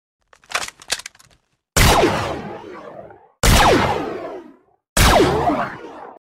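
A sci-fi blaster pistol sound effect fires three loud, sharp shots, each with a long ringing decay, after a few quieter rattling clicks like a gun loading up.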